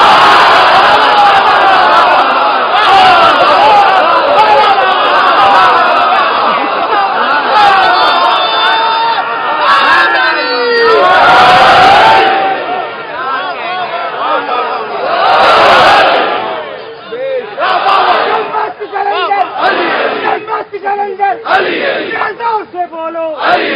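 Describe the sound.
A large crowd shouting a slogan in unison at a religious gathering, loud swelling roars of many voices broken by brief lulls and scattered chatter.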